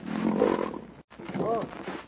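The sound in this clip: A lion roars in a brief, rough, growling burst, low and throaty. A momentary break splits it into two rumbling surges.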